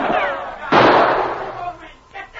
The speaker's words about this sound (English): Sergeant Preston's quick shot smashed the carbine Travis leveled at the charging dog.